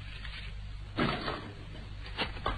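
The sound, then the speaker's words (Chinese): A door is opened with a dull clunk about a second in, followed later by a couple of lighter knocks or rattles. All of it is fairly faint over a low background hum. “开门。”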